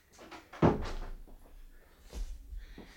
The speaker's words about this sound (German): Machen Sie die Tür zu.